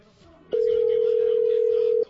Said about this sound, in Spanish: Le estamos marcando al jefe a ver si contesta.